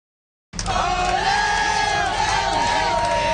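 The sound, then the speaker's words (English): Fans cheering to welcome the Montreal Victoire hockey team off the bus with the Walter Cup after silence breaks into loud, sustained crowd roaring with high whoops and shouts layered on top. “That is the sound of fans welcoming the Montreal Victoire as they got off the bus, hoisting the Walter Cup.”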